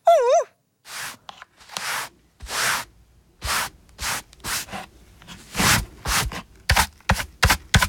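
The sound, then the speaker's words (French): Broom sweeping a floor while tidying up, a series of many brushing strokes that start spaced apart and grow quicker and sharper toward the end, opened by a brief warbling tone. “Tout est rangé. Il ne reste plus qu'à balayer.”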